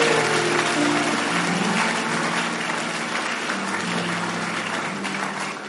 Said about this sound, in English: Oh, the sinners are not clapping. Please clap. Please clap.